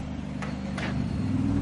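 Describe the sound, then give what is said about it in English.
Aston Martin race car pulling into the pits with a damaged left rear tyre and buckled wheel, its engine a steady low droning hum, with two brief bursts of brighter noise early on. “The Aston Martin of Mattia Drudi makes it to the pits.”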